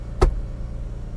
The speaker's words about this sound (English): Today we are driving